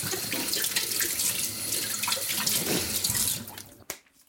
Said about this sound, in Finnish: Ja sitten otetaan vielä paprikat, eli käsitellään nekin. Pese paprikat.